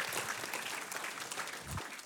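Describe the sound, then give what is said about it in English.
Applause from a church audience welcoming a speaker to the front, a steady dense wash of many hands clapping that holds at an even loudness for about two seconds. “Put your hands together, guys. Welcome her.”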